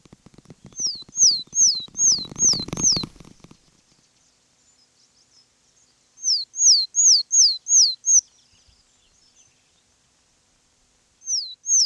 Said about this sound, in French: Mésange des saules.